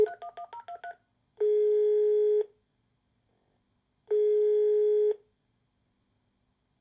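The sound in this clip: Touch-tone keypad beeps dial a telephone number in a quick run, then two long, even ringing tones separated by silence, with the start of a third at the end, and no one answers.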